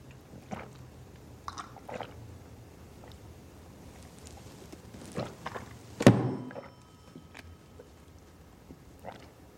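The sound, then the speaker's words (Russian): Milk is drunk slowly from a glass, with a few soft gulping and swallowing sounds followed by one louder knock of the glass. The sounds are faint and come alone, with no talk. “поднимает стакан, медленно подносит ко рту, пьет.”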